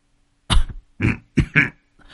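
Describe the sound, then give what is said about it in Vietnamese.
Harsh, painful coughing from a frail, ailing old man: four heavy, rasping bursts in an uneven run, the last two close together, with another just starting at the end and no talk. “Lão Bằng ngồi co ro, ho lên khổ khổ.”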